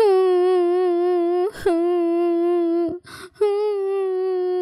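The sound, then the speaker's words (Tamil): A young girl wails loudly in long, sustained, high-pitched cries of fairly steady pitch, broken by two brief gaps and ragged, breathy catches, alone with no other sound. “அதை பார்த்ததும் அந்த குழந்தை ரொம்ப சத்தம் போட்டு அழ ஆரம்பிச்சா.”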